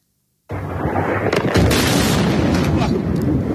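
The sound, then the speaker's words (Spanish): Israeli bombs exploding over Tehran, Iran: a loud, heavy roar bursts in abruptly and keeps rumbling without a break, with a few sharper cracks rising out of the dense low boom. “Es el sonido de las bombas israelíes sobre Teherán, la capital de Irán, esta mañana”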